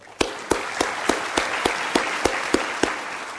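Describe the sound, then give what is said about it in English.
Applause from an audience as names are read out at a recognition event, with sharp hand claps landing in a steady, even rhythm over a constant wash of clapping, no voices. “we can applaud anyway”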